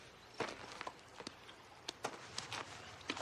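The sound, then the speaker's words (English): Footsteps of two people walking toward rocks, scuffing in an irregular rhythm. The steps are many, soft and crisp, over a faint steady background. “They hold hands and walk where Henry motioned.”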